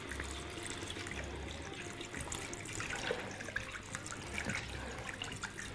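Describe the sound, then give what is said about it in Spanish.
Bottled water poured into a cooking pot over beef, a steady splashing and gurgling trickle that runs continuously from start to end at a fairly low level. “Venga, vamos a echar agua de botella por no cortar el problema.”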